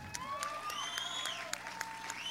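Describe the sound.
Applause from an audience at a songwriting jam welcoming a performer to the stage: many dense, overlapping claps form a steady, fairly even patter for the whole stretch, with no talk over it.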